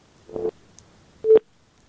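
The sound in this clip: Telephone busy signal after a caller's line dropped: two short, steady mid-pitched tones separated by a silent gap, with no talk.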